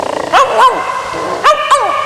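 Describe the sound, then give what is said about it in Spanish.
A dog barks in four short, high yelping barks arranged as two quick pairs, each bark dropping in pitch, with no talk. “Y Bruno, el perro.”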